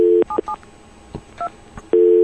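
Telephone DTMF tones dial through a SIP service: a few short two-pitch beeps sound with gaps between them, framed by a steady tone at the start and the end.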